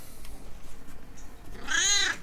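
A cat gives a single clear, high-pitched meow near the end, after a stretch of faint background hush.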